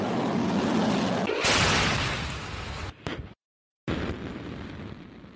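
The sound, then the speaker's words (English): Roaring blast of a nuclear-capable Russian ballistic missile launch at joint Russian–Belarusian military exercises. A loud, broad rumble swells sharply, then drops to a brief total silence before the roar resumes. “President Putin and his friend President Lukashenko of Belarus watched the spectacular finale of their joint military exercises, Russian ballistic missiles capable of carrying nuclear warhead.”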